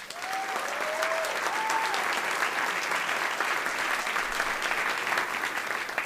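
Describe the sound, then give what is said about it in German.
Audience applause for two comedy finalists at a live comedy show, a steady, full burst of clapping with a few whistles and whoops near the beginning. “Euer Applaus für Yaki und Annika.”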